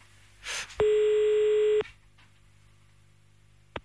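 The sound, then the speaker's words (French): A single telephone tone sounds as a caller dials back someone whose call was cut off. It is steady and buzzy, held for about a second after a brief rustle, and a sharp click follows near the end. “On va le rappeler, hein.”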